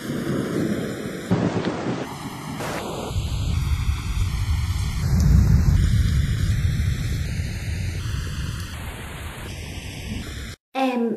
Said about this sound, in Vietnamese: Lâm Tư Hàn nhìn mưa gió gào thét ngoài cửa sổ